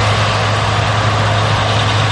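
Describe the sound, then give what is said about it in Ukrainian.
A combine harvester working in a field near a border: a steady, dense engine drone with a strong low rumble and broad mechanical noise, unbroken and even in loudness throughout. “поле і комбайн, який працює так, ніби війна десь далеко”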